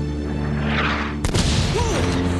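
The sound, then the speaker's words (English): An anti-aircraft fire explosion: one sudden, loud boom bursts in over a steady low droning hum, leaving a broad rumbling wash afterward. “What the hell was that? Oh damn, they followed us. Anti-aircraft fire?”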